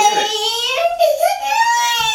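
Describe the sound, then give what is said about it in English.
A child cries over chips in a loud, continuous, wavering wail. The pitch sags in the middle, then climbs again. “This is the fourth time telling you not to eat the chips that you're going to cry about, that you're now crying about.”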